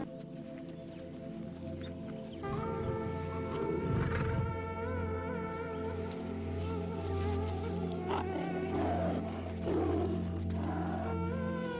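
A lion roars with a deep, rumbling burst near the middle, set against a steady bed of wild animal and insect-like buzzing sounds.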